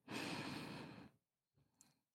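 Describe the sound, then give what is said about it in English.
Deep breath in during a guided relaxation exercise: one long, airy breath, followed after a pause by a shorter, softer breath, both quiet and close with no talk. “Allow each and every breath to relax you more and more as we go deeper. Let's begin. First breath in.”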